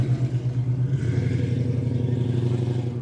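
An old car's engine as it drives away during a car club gathering: a low, steady rumbling hum with a slight shift in tone partway through.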